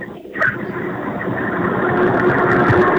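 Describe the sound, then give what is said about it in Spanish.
A car engine runs steadily while driving through mountain roads, a continuous low rumble with a broad mid-range roar that grows slightly louder over the few seconds, with no talk over it. “Es que vas manejando. Sí, yo voy por aquí por la cordillera.”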